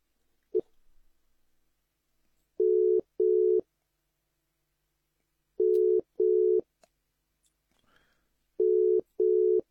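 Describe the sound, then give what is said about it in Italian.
A telephone rings in a double-ring pattern: three pairs of steady, mid-pitched tones, each pair separated by a longer pause, with faint scattered noise between the rings. “Ke bona mohala wa lla. O tsweditswa phapusing e kgolo. Entlena ya khaso ke utlwa yalla”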